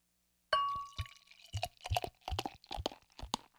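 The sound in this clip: Beer, a sweet, complex brew with aged-port and intense caramel aromas made with wildflower honey, is poured into a glass. A brief ringing tone opens a run of irregular gurgling glugs and splashes.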